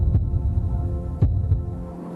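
A heartbeat gives a few soft, low thumps at uneven gaps over a steady, droning hum.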